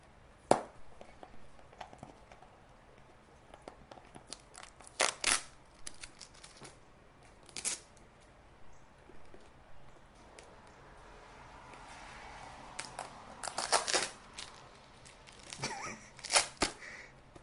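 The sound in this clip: Packing tape is pulled off a box in short, faint, irregular bursts of ripping and crackling, with quiet gaps between the tears and a cluster of quick pulls near the end.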